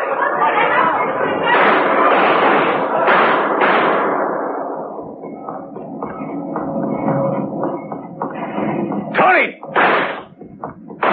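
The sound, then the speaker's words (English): A handgun fires at the end of a ramp leading to a station passenger tunnel, with a sudden sharp bang and a few crackling bursts near the end, after a long stretch of busy voices and clatter. “At the end of the ramp, he stopped and drew his gun. After the shot”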